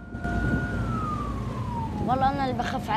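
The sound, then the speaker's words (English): An ambulance drives along a quiet street at night, its siren-like wail gliding slowly down in pitch over about two seconds. Wavering, warbling tones then take over above a low rumble. “the ambulance drives along a quiet street at night.”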